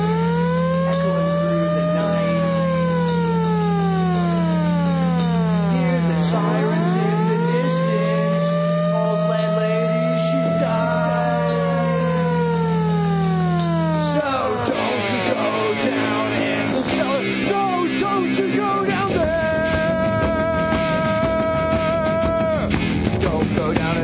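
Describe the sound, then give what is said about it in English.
Sirens wailing in the distance, a slow series of rising and falling sweeps over a steady low hum, which later gives way to loud, dense music. “Hear the sirens in the distance.”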